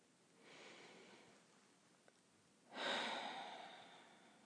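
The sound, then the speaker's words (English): Slow, deep breathing with no talk: one soft, drawn-out breath in, a pause, then a louder, longer breath out that gradually fades, all fairly quiet. “Before I start, I'm taking a few connected, deeper breaths in and out.”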